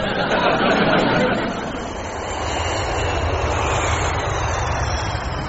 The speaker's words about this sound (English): We should be landing in Gdansk in just under 20 minutes. I apologize for our delayed arrival. We had to divert around a thunderstorm en route.